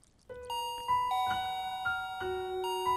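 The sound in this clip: A gate bell rings out a chime of several clear electronic tones in a short melodic sequence. The notes overlap and sustain, ringing fairly softly with no voices.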